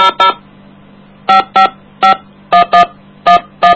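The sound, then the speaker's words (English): Touch-tone dialing of a telephone number on an AT&T line: nine short, loud DTMF beeps in uneven bursts, two quick tones, a pause, then pairs and singles, over a faint steady hum, with no voices. “To place a call, please dial the area code and number you are calling.”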